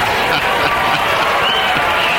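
A softball stadium crowd cheers during an extra-inning Women's College World Series game between the Oklahoma Sooners and Tennessee. A loud, continuous roar mixes with clapping and keeps an even intensity throughout.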